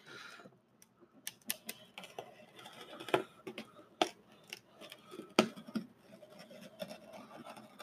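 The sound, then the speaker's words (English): Cutting open a package for unboxing: a series of irregular sharp clicks and scraping snips, some louder than others, with no talking. “So, cutting it open.”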